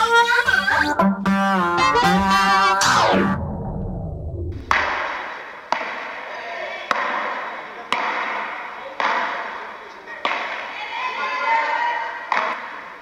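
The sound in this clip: Tambourin balls struck by players in an indoor hall give sharp, reverberant thuds, about eight of them at a steady pace roughly a second apart. A short burst of music with a falling sweep comes before them.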